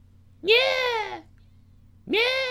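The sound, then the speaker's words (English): A human voice imitates a weird, freaky cat meow: two drawn-out, nasal, meow-like calls with a bending pitch, the first longer than the second, separated by a short silence. “like a cat, like do some type of weird, freaky cat meow, some weird sound”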